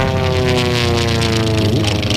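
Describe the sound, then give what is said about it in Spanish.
A small propeller plane takes off for a flight over the Marquesas Islands, its engine a loud, steady, dense harmonic drone that continues throughout without a break. “Oba, ya va a despegar, venga. Agárrate, ponte el cinturón.”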